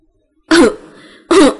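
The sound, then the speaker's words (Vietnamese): Two short, dry coughs, loud and alone, separated by a pause of about half a second with a faint low rasp between them. “Bảo Bất Bình ho khan hai tiếng”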